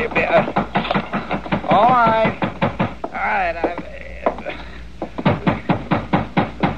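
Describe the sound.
Knocking on a locked door: many quick, evenly spaced raps continue almost throughout. Brief voices break in midway.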